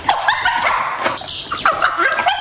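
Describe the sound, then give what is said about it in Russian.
A dog barks and yips repeatedly in quick succession, loud within a dense, busy mix of sound. “Когда Топ звал нас к Питеру Сайрусу, он лаял точно так же.”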